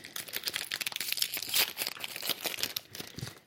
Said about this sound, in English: Open here. This one's gluten free, but it's going to rip the little tabby tab up. Oh, there it goes.